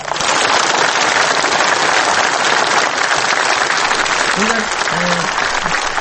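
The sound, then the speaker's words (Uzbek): Dense, loud applause from an audience at a speech by Uzbek president Karimov, a steady unbroken roar of many hands clapping that holds level for the whole stretch. “Qarsaklar qani?”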